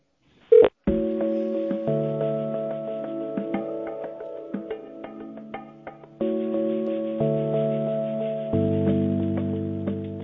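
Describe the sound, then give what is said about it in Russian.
Telephone tones while dialing an extension number: a brief sharp beep, then long, steady electronic tones that shift pitch a few times, heard alone without voices. “Если вы знаете внутренний номер сотрудника, нажмите решетку и номер абонента.”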